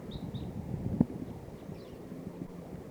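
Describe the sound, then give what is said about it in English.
Crossbills giving a few short, high chirping calls, faint over steady wind noise. “Cross bills are coming close. 5-7's calling loud now.”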